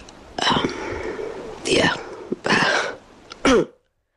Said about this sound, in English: You're really forcing the cough out there.